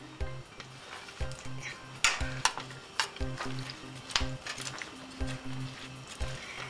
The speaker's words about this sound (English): And my peppers. Give it a good stir.